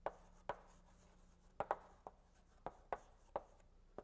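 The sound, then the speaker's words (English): Writing on a board during a linear algebra lecture: faint, irregular sharp taps and short scratchy strokes, spaced unevenly with quiet gaps between them. “Let me write that down.”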